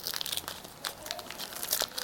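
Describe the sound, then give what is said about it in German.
Paper crinkles and crackles as someone unwraps a folded package sealed with sticky tape at the top and bottom. Many quiet, irregular rustles and crunches follow one another, with no talking. “Das ist gar nicht so einfach, das auszupacken.”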